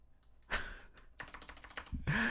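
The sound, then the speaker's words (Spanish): Typing on a computer keyboard, a rapid run of clicky keystrokes that starts sparse, then comes in quick, denser bursts toward the end. “Necesito un teclado nuevo para Nerdcore.”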